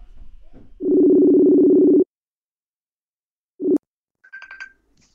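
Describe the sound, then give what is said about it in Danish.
A mobile phone call to a guitarist and bandleader, placed to wish him a happy new year. A steady ringback tone sounds for about a second, followed after a pause by a brief second tone burst and a few faint chirps. “Så nu trykker jeg på ring op-knappen.”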